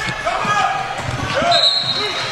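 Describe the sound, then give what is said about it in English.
A basketball is dribbled on a court late in a close game during a full-court press, giving a few dull, low thumps in a steady rhythm beneath dense, continuous background noise. “On the dribble handoff, Hudman trying to toss it over to Hawkins, but the ball goes out of bounds”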